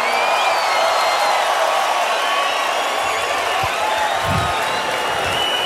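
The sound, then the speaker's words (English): A festival crowd at Tomorrowland cheers and applauds for a DJ, making a dense, unbroken roar of clapping and shouting that stays loud throughout, with whistle-like tones running through it. “So everybody put your hands up in the air and make some noise for John Summit.”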